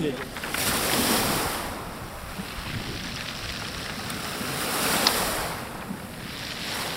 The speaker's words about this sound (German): Rund 30 Kilometer vom Stadtzentrum entfernt liegt der Ortsteil Adler direkt am Meer. Rostige Metallgitter sperren den Zugang zum einst beliebten Kieselstrand ab.